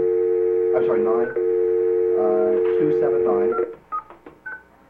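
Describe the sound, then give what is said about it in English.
Touch-tone dialing of a telephone number to connect a caller into a legislative hearing: a steady dial tone runs under a talking voice, then a few short, separate key beeps sound near the end. “We will now dial up Mr. Chatterton on House Bill 55.”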